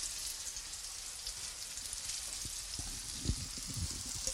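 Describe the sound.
Apples fry in melted butter in a pan for an apple crumble, giving a quiet, steady sizzling hiss with a few soft, low pops.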